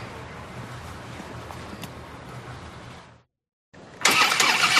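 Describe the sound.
A motorcycle engine starts after a steady low rumble and a short moment of silence, catching suddenly with a loud, bright burst of engine noise that carries on to the end.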